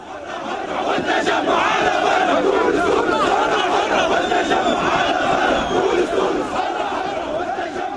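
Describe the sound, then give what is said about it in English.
A protest crowd chants and shouts on Habib Bourguiba Avenue in central Tunis, a loud, dense roar of many voices. It holds steady throughout with no pause. “But the mood on the streets of Tunis today was talking of revolution. Just listen to this protest in the heart of the capital.”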